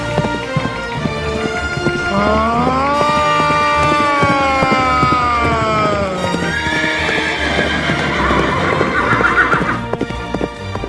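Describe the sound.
A horse whinnies in a long, loud, wavering cry over steady clip-clop hoofbeats that run through the whole stretch, with no voices.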